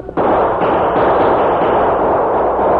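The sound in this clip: Gunfire in a shootout between outlaws and the defenders of a mountain pass: a loud, dense, continuous barrage with no separable single shots, sustained for nearly three seconds after a brief quieter start.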